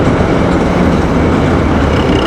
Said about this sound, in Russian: Трамвай просто бешеный у нас.